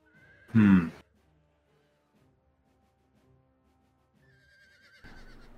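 A horse neighs once, loud and brief, as its rider brings it to a halt, followed by near silence.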